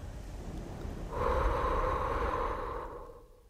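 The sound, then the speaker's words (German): Breath pushed out onto a mirror: one long, soft, hissing exhale that rises quickly, holds for about two seconds, then tapers away over a faint background hiss. “Komm, hier, atme. Auf den Spiegel.”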